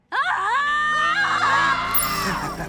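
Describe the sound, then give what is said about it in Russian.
A woman screams in anguish as her fellow warrior is killed in a sword fight. The single scream starts abruptly and holds as one long, loud, high-pitched cry that wavers a little before easing slightly near the end. “Она не может сдержать крик, когда Киллмонгер перерезает горло ее боевой подруги.”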